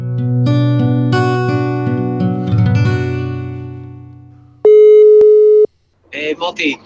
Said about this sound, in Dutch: Gaan we hem bellen? We gaan hem bellen.